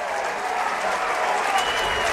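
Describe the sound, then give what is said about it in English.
Crowd gives a standing ovation at a college baseball super regional game after a crashing catch at the bullpen wall, a thick, continuous roar of clapping and cheering held at a steady level. “gets a standing ovation from this Troy faithful crowd.”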